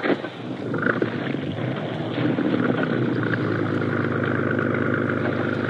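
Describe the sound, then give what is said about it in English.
A boat motor drones with a loud, steady, rough rumble, holding an even level throughout with no voices. “Start the motor up again.”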